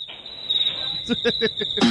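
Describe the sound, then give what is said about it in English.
A crickets-chirping sound effect gives a steady, high, unbroken trill throughout, with a brief voice over it near the end. “And look who's in the audience. Uh-huh. It's the Crickets.”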